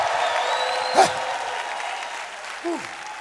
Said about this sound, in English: I want everybody that believes in the kingdom constitution, 1, 2, 3, make a little noise in the room right now.